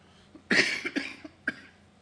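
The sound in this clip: A person with a tickle in the throat coughs a few times in quick succession: a longer first cough, then shorter, sharper bursts, with no speech.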